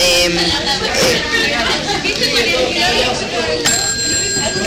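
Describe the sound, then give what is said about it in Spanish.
A bell rings near the end, bright high tones cutting through constant talk and loud background chatter. “Ese es el timbre”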